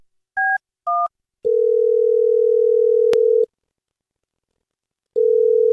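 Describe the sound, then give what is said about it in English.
Telephone dialing on a line: two short dual-tone keypad beeps, then a loud, steady dial tone broken by a click. The tone stops, leaving silence, and returns near the end. “But I'm trying to dial JJ's line”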